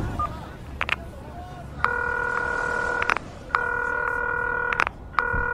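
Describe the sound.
Ringback tone of an unanswered phone call to a grandmother: long, steady, buzzing tone bursts separated by short silences, about three of them, with the last cut off at the end. A few faint clicks come before the first.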